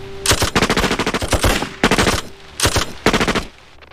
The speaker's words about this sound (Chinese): 准备。开火。